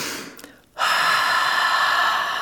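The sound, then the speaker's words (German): Deep breathing during a relaxation exercise: a loud, breathy inhale fades into a brief pause, then a longer, steady exhale of rushing air continues to the end, with no voices. “10-mal ganz tief durchatmen, dabei doppelt so lange ausatmen wie einatmen.”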